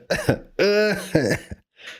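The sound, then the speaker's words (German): A voice imitating a cough: a few short, raspy, throaty bursts in an exaggerated, cartoonish manner, ending with a breathy huff. “Oder man hustet die ganze Zeit wie Peter Griffin so und dann so.”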